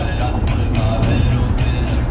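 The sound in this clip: A car drives back to Chicago on a rainy Friday night, with a steady low engine and road rumble throughout, under a man talking.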